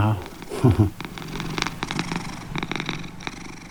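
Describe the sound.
Cat purring at home, a continuous low rumble with a louder burst early on, mixed with other faint sounds throughout.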